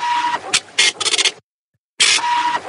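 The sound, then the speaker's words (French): A dot matrix needle printer printing, with harsh, buzzy bursts of rapid mechanical chatter and a steady tonal whine, then a short, complete silence before the printing starts again. “c'est une imprimante. C'est une imprimante. à aiguille. À aiguille.”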